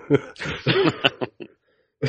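Rough coughing and throat clearing from someone with a frog-like congestion in the chest: several short, throaty, voiced bursts in quick uneven succession, then a brief pause before one more burst.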